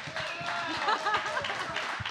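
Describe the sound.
Scattered audience clapping at a comedy show as a volunteer is brought up on stage, with voices talking over it.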